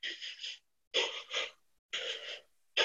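A person imitates rhythmic but uneven, non-smooth breathing: a few loud, breathy wheezing bursts at regular intervals. Each burst is broken into choppy, stepped pulses rather than a smooth flow, with short silences between.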